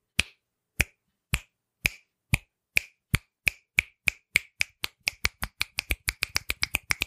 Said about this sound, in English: imagine if my claps are snaps, or my snaps are claps.